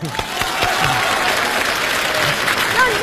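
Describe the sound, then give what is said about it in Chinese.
Audience applause as a crowd welcomes an older man to give an acceptance speech at a stage event in Beijing: dense, sustained clapping of many hands, steady and fairly loud throughout without a clear break. “好朋友们，接下来我提议，让我们今天所有到场的好朋友，伸出您的双可爱的双手，欢迎大叔做获选感言。”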